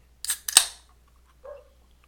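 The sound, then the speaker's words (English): Opening a Lagunitas Daytime IPA, a low-carb session IPA: two quick hissing bursts, the second with a sharp crack, then a short quiet pause and one faint, brief softer sound. “I am going to open a Lagunitas Daytime IPA. It is kind of a low-carb session IPA type thing. So here we go.”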